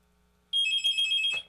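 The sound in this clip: A telephone gives one short, bright electronic ring, a steady high warbling tone lasting under a second before cutting off.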